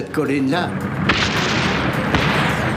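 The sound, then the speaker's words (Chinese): A 75 mm artillery gun fires during a battle. A brief voice is heard at the start, then two heavy booms break out about a second apart, each swelling into a sustained rumbling roar. “所有的人都勇敢地朝敌人冲锋。我们用上了75毫米火炮，只有拿下那个位置，才能保住制高点。”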